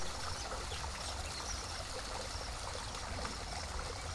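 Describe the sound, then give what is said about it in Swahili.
Water flowing from a natural spring, a steady, unbroken rush and trickle that holds the same level throughout, with no voices. “Ningependa kukupa na kukuonyesha taswira kamili ya maji ya chemichemi na pale ambapo maji haya yanatokea.”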